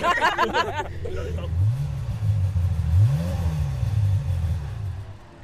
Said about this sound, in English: What is it? Ferrari 355.